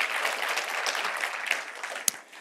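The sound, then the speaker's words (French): Applause from a church audience during a service: a dense, steady patter of many hands clapping for the whole stretch, moderately loud, with no speech over it. “Si vous êtes d'accord avec moi, une bonne main d'applaudissement au Seigneur pour cette église.”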